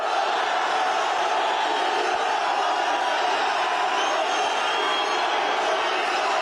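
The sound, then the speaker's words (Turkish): Fans chant loudly to welcome footballer Mohamed Salah at the airport in Trabzon. The crowd's roar is dense and unbroken from start to finish. “Salah'ın üçlü çektirdiği taraftarlar "Ya Allah, Bismillah, Muhammed Salah" tezahüratlarında bulundu.”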